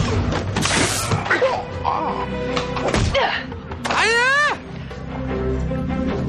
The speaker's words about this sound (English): And I love now Chuck's getting into all the little karate chops and stuff.